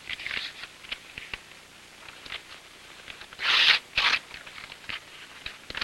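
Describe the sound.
A paper letter is ripped into tiny pieces, giving crisp, crackly tearing bursts: a few lighter rips, then two louder, longer tears near the end, with no voices.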